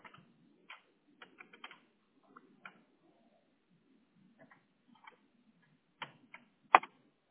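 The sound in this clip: Keystrokes on a computer keyboard as a query is entered into a Google search bar: sparse, light clicks in short irregular clusters with pauses between, ending in a few louder taps.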